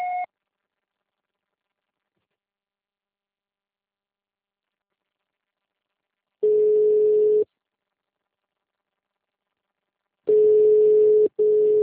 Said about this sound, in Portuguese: Sua chamada está sendo encaminhada para a caixa de mensagens para fugir da cobrança após o sinal. Grave seu recado.